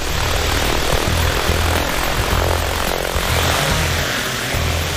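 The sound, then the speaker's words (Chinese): A toy airplane takes off and flies, giving a loud, steady propeller drone. The buzzing, engine-like whir holds at an even level for the whole stretch with no pauses. “玩具飞机有办法了，起飞。”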